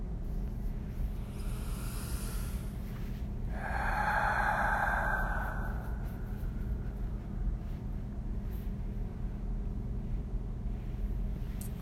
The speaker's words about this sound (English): Taking a few really deep breaths in through the nose, filling up the body and out through the mouth.